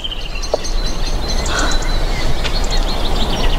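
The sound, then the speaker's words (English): Faint birdsong in the background of a period film scene. A few scattered high chirps sound over a steady, noisy outdoor hum, with no talk. “You can hear the birds in the background.”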